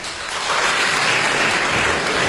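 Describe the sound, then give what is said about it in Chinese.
Audience applause that swells during the first half second and then settles into a steady, dense wash of clapping, moderately loud throughout. “说到这儿 啊 这些吃饭的人都给我鼓掌”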